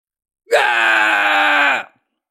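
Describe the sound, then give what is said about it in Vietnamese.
A man screams in pain in a single loud, drawn-out voiced cry, held at a steady pitch for over a second and then cut off. “Xích Thần Quân gào thét”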